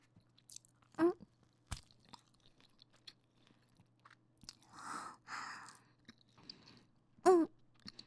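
Someone chews a corn flatbread, a faint and irregular sound. A few sharper crunching bites stand out above quieter, soft mouth noises, with no talking.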